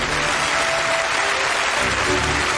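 Audience applause at an honours ceremony, a dense, steady clapping from many hands that holds at an even, full level from start to finish.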